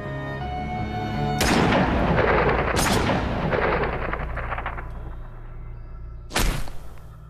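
Three gunshots, each a sharp, loud, booming blast with a rumbling decay. The first two come close together and the third follows after a longer pause.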